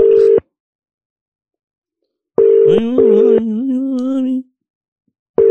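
A telephone ringing tone sounds while a call is being placed, in a few steady, even-pitched tone bursts separated by stretches of silence.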